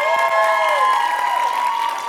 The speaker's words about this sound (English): Now give yourself a big round of applause real quick.